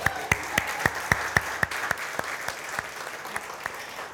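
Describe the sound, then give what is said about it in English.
Audience applause for a man at a gathering: a small group claps in a steady, evenly spaced rhythm, with sharp, fairly faint claps repeating throughout. “If we can give a round of applause for Eric.”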